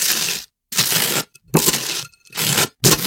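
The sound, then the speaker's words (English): A knife spreads butter across toast in five rough, crackly scraping strokes, each about half a second long and separated by short silences. “Breaking something on toast. Yeah, it's spreading butter on toast.”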